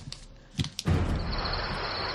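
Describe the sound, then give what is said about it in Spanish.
A TDK chrome cassette tape is turned over to its other side, making a few sharp plastic clicks and a short rattle. A steady hiss with a faint high whine follows. “En el momento que se me está acabando la cinta, voy a dar la vuelta.”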